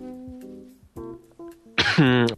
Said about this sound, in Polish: ja muszę wykaszlnąć. To kaszlę.